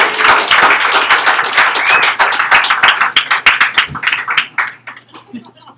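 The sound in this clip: Applause from a poetry reading audience for a poet, loud dense clapping that gradually thins into scattered individual claps and fades away over about six seconds.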